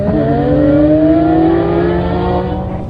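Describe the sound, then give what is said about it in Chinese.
Race cars speeding off the start line at a one-day racing event, engines revving in a loud, continuous roar with rising whining pitch that holds steady for about three seconds before easing slightly. “一辆辆赛车飞驰而出”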